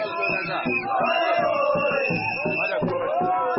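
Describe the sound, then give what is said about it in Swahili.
Football fans cheer at Moi Sports Centre Kasarani after Karibangi Sharks beat Everton on penalties, a steady mass of crowd voices threaded with high, sustained wavering cries. “Shangwe, vifijo na nderemo za mashabiki wa soka”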